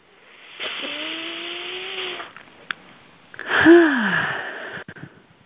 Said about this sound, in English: take a breath and receive it with gratitude.